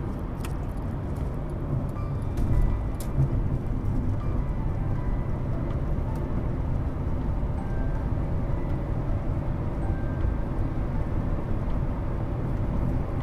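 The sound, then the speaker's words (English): Steady road and engine rumble heard from inside a car while it is being driven, a dense low drone that holds at an even level throughout with no voices. “Sorry, I forget I'm kind of driving and doing this at the same time.”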